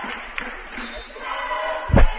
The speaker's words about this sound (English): A jam-packed crowd here at the O'Reilly Center.